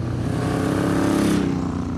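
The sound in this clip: Deep, steady rumble of a custom motorcycle engine idling, loud and continuous with a throbbing low pulse and no pauses.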